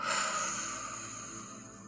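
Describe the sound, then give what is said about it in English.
A deep exhale through the nose or mouth during a guided breathing exercise, a soft, steady breathy rush that slowly tapers over a couple of seconds. “as you exhale through your nose or your mouth, just let everything go”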